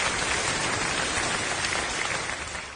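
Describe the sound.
Audience applause for a teacher at a talk about Henan opera: a dense, continuous patter of many hands, steady and fairly loud, tapering slightly at the very end.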